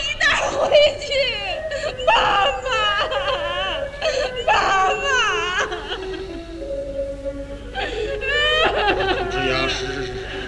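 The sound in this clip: Children sob and whimper in a Chinese opera scene, wavering wails that bend up and down in pitch across several bursts, mixed with talking voices.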